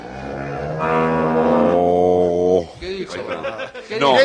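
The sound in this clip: A dairy cow on a dairy farm lets out one long, loud, low moo that holds steady for over two seconds before people start talking.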